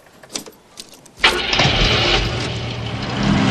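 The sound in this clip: A car engine starts while a finger is held on its butterfly valve: a few faint clicks, then an abrupt catch that settles into a loud, steady idle.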